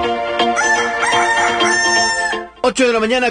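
A rooster crows in a long, drawn-out, loud call, then after a brief pause begins a second, shorter crow.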